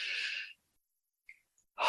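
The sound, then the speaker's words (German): Deep breath in during a guided meditation: a loud, airy rush of breath that fades out after about half a second. Then near silence with a brief faint noise, and another breathy sound begins right at the end. “Wir atmen tief ein.”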